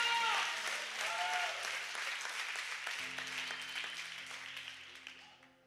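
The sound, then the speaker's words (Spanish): A church audience applauds in a broad, crackling wash of clapping that slowly fades, with faint voices and sustained organ-like tones joining partway through. “Denle un aplauso a la iglesia.”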